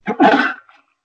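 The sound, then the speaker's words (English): One person sneezes: a short intake followed by a loud, forceful burst that trails off quickly into silence. “What a sneeze.”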